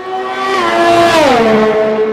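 A short racing-car jingle for a Styrian Grand Prix segment, made of a loud, buzzing, engine-like whine that holds steady, then drops in pitch partway through.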